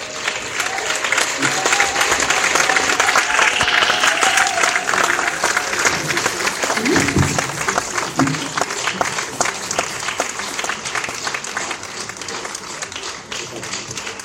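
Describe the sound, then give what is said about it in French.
Sustained audience applause fills a 40th-anniversary celebration ceremony in Cameroon, a dense wash of many hands clapping steadily throughout, easing slightly toward the end. “Est-ce que nous pouvons encore acclamer Madame la directrice générale de Campbell, la marraine”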